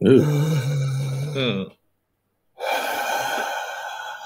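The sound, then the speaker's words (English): Long, slow breathing: a drawn-out, voiced, groaning breath, then a silent pause and another long, airy exhale. “You hear what sounds like breathing.”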